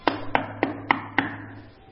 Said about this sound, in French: Il frappa à la porte.